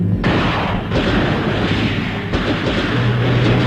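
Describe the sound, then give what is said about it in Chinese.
Light machine gun fire rains down in a guerrilla battle in the water, with enemies on boats firing back. A loud, dense, continuous roar of rapid shots and blasts runs throughout, with no single shots standing apart. “话音未落，游击队轻机枪的子弹雨点般泻向敌阵，队员们散步水中一起猛打，敌人伏在船上还击。”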